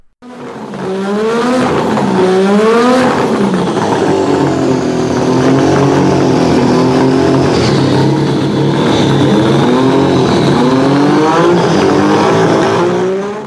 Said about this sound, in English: So, what do you think of the Lotus sound effect you asked me to get? I think Monsanto wanted locusts, but an old turbo Formula One engine's good too.